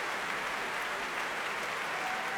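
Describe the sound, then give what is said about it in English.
Sustained applause at an orchestral concert as conductor Vasily Petrenko claps the orchestra on stage, heard as a dense, even, fairly faint wash of many hands with no talk. “He claps the orchestra here.”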